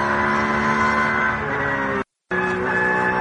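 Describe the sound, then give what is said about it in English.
A BMW race car's engine drones steadily in the pit lane with a loud, buzzing tone that shifts slightly in pitch and briefly cuts out near the end. “potentially speeding in the pit lane, another car from one of the BMW classes.”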